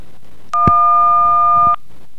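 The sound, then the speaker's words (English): DTMF tone played through a microphone: a single steady dual-pitch telephone keypad tone, opened by a short click, holds evenly for just over a second against a faint background hiss. “I was trying to pass DTMF through the microphone, if you couldn't tell.”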